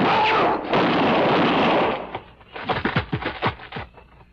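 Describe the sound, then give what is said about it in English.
Gunshot sound effect in a radio drama: a long, loud blast of rushing noise cuts off, followed by a rapid series of sharp cracks and pops that trail away. “Because now I'm going to kill you with your own gun.”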